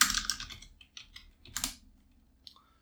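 Computer keyboard typing to note down a Stanford pick: a few short, quiet bursts of keystrokes separated by brief pauses, with no talk.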